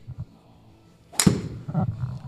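A golf ball is struck with a wood club on the third shot of a round, giving a single sharp, crisp crack followed by faint lower sounds.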